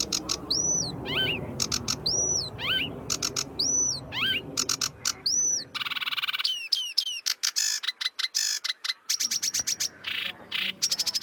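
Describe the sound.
Sedge warbler song, a varied run of repeated whistled phrases with rising and falling notes, shifting into rapid dry chattering and clicking notes in the second half, with no talk.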